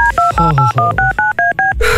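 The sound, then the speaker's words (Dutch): Telephone dialing tones from a phone call being placed: a loud, rapid series of short keypad beeps at alternating pitches, ending in a longer, steadier tone. “We gaan bellen.”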